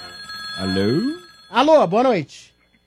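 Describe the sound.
A telephone rings on a call-in line during an evening radio show: a warbling electronic ring in a few short, tonal bursts, loud and clear, then dropping into silence.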